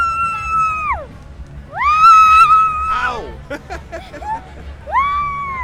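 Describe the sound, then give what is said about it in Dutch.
A child screams while swinging on a swing at a festival, letting out a few long, high-pitched wails that fall off at the end, with brief voices and chatter between them. “Kun jij een beetje gillen als je op de schommel zit? En dan heen en weer, dat is grappig, want dan hoor je het zo heen en weer gaan.”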